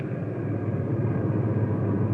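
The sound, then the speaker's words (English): A truck engine runs with a steady, continuous low rumble that holds an even loudness throughout, with no voices. “Stop the truck. Stop the truck.”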